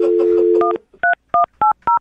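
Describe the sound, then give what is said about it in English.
A telephone being dialed: a steady dial tone gives way to a quick run of short, evenly spaced two-note keypad tones, each one clean, loud and alone. “I'm going to dial the phone right now.”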